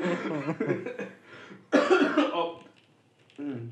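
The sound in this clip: A wet cough with mucus: harsh, rough bursts of coughing, moderately loud, mixed in with talking.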